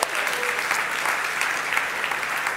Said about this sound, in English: Would you put your hands together and welcome our online Soul Church community?